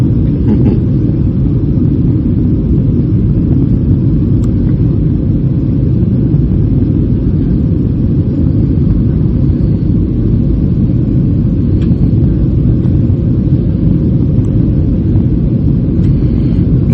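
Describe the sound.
Airplane in flight over a sea bay: a steady, loud, low engine drone with broad rumble that holds unchanged throughout.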